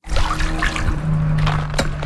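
Water swishes and splashes as a skimmer net is dipped into a backyard swimming pool whose bottom is black with ash; a steady churning wash carries on throughout, with a few sharper splashes near the end.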